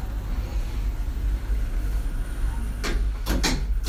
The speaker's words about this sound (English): fermeture des portes. Doors closing.